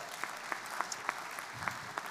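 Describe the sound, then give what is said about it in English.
Audience applause, a steady patter of clapping hands with a few sharper individual claps standing out, fairly faint and lasting only a couple of seconds. “Oh, give these guys a round of applause.”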